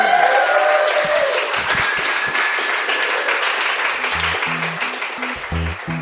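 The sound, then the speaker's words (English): An audience at a live show recording in San Francisco applauds a guest. Sustained, thick clapping stays loud and steady before easing off slightly in the last seconds. “Incredible audience. Let's give it up for Allison.”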